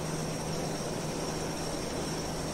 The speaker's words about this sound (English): You know, I still get the feeling that I have heard these planes before.